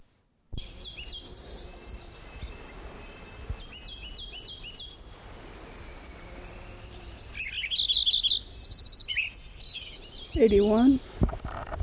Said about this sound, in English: Lincoln Sparrow number 9 again.